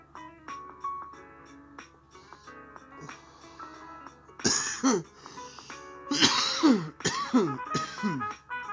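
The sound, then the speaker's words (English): Harsh coughs and throat-clearing from a person with a cold, several rough bursts bunched into the second half after a quieter, tonal stretch, some with a strained, wheezy edge. “I might cough throughout this podcast because I have a cold”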